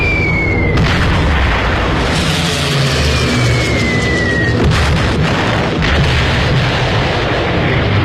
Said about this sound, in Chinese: 德国空军派出斯图卡轰炸机发动空中打击